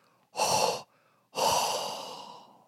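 Warm breath is exhaled in two breathy, airy blows separated by a short pause. The first is brief and the second is longer and trails off gradually, with no talk over them.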